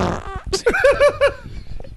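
A loud, sputtering fart made of several bubbling, pitched pulses in quick succession that trail off into a ragged rasp.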